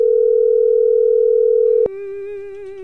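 A telephone ringing tone plays while a call is placed: a steady, loud mid-pitched tone holds for nearly two seconds, then a sharp click, then a quieter wavering tone with rich overtones continues.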